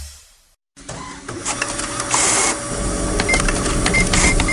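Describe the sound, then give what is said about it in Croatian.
A printer runs, its steady mechanical whirring and rattling starting after a brief silence and continuing with small clicks and shifts in tone. “Izgleda da je tvoj printer odlučio uzeti slobodan dan.”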